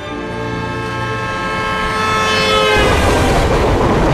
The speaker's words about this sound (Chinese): 列车划过宽广的草原，呼啸而过。